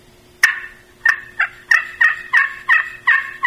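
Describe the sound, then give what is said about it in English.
A turkey call imitates the contented clucks of a hen turkey: nine short, sharp, loud clucks, the first standing alone and the rest following in a fairly steady rhythm, with no voices. “another sound that we can make at this time would be clucks and purrs. And that's a hen turkey when she's real content.”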